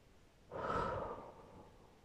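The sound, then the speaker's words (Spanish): A single slow exhale during a guided breathing meditation: a soft, breathy rush of air swells quickly, then fades gradually over more than a second. No voices are heard. “tres, cuatro, sostén. Y exhala.”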